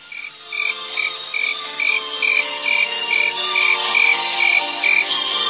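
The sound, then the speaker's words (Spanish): A cricket chirps at night with steady, evenly spaced high-pitched chirps, roughly two per second, over a dense, continuous chorus of other night creatures. “escucha ese grillo”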